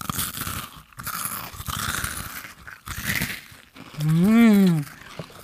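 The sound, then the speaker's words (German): Crunchy chewing of a salty, hearty snack, exaggerated for ASMR listeners, with crisp bites spread through the stretch, then a long hummed murmur of enjoyment near the end. “Ich kaue extra so für unsere ASMR-Hörer, die wir jetzt neu dazu gewonnen haben.”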